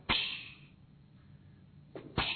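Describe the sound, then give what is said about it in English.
A voice imitates flaming arrows striking a shield and being quenched. Sharp, hissing bursts open with a trailing sizzle, and a few more bursts hiss out near the end. “That's fire getting quenched, all right? And it would put the fire out.”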